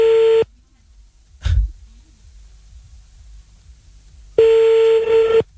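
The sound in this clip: Ringing tone of an outgoing telephone call being placed to call someone back: two steady, buzzy tone bursts, one brief at the start and one longer at the end, separated by near silence and a soft thump.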